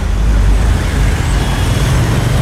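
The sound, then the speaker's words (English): Road traffic moves across town below the roof of the Corn Exchange. A steady, loud, even rumble of passing vehicles runs throughout, with no single vehicle standing out. “You join me back on the roof of the Corn Exchange, seeing how things are looking. Traffic seems to be moving okay across town.”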